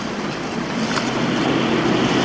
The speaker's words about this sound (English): Hooper drives the boat, Chief.